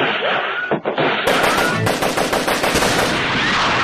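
Gunfire sound effect: rapid machine-gun fire, a loud sustained stream of many shots in quick succession with no voices over it.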